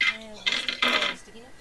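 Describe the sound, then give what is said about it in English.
Twenty-sided dice clattering across a table during a tabletop role-playing game, with two bright, rattling bursts of hard plastic tumbling and settling. “Everyone give me a d20 roll unmodified.”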